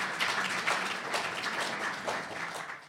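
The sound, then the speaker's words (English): Audience applause welcoming the panelists at an art review panel: a steady wash of many hands clapping at moderate level, holding throughout before thinning at the end. “So, ladies and gentlemen, please welcome your panelists.”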